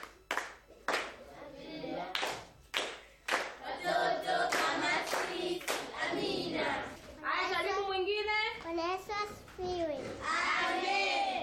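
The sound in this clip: Hands clapping at a church Bible-reading gathering: a handful of sharp, loud, separate claps open the stretch, then children's voices take over and talk continuously.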